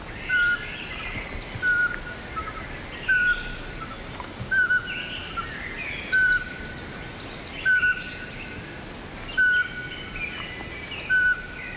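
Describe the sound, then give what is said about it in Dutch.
Whistled calls of a very small owl, about the size of a great tit with a broad head, perched on a branch: eight short, clear notes at an even, unhurried pace, with faint chirps in the background. “Ik zie een heel klein uiltje op een tak zitten. Ik kwam net aangevlogen.”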